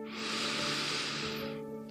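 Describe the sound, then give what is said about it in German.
A single deep breath during a guided meditation, a soft, steady, breathy hiss of air that lasts about a second and a half before fading. “Und nimm wie immer drei tiefe Atemzüge mit mir.”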